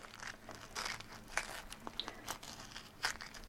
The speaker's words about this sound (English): You just take that coring tool, plunge it into the flesh of the squash, move it in and out